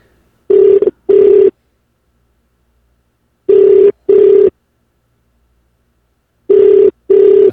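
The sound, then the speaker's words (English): Telephone ringback on an outgoing call: three evenly spaced double rings, each a pair of short, loud, steady low-pitched buzzes separated by long silences. “There you go, it's ringing. I hope he picks up.”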